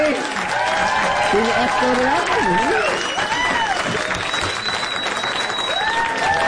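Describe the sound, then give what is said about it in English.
Audience applause and an ovation for an actor and writer arriving as a guest on a talk show. Sustained, full clapping is layered with cheering voices and rising whoops throughout. “A very nice ovation from our audience.”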